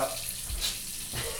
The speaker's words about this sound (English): washing his hands